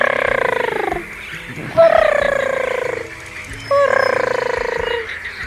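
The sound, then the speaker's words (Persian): Frog croaking, from a chorus said to hold millions of frogs: three drawn-out, buzzy, tonal calls, loud and steady, separated by short gaps. “اما دوباره به موسیقی زیبای میلیون ها قورباغه گوش سپرد.”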